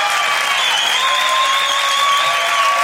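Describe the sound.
Studio audience on a chat show applauds a guest actor's entrance, a loud, steady wash of clapping with no breaks, with sustained tones running through it.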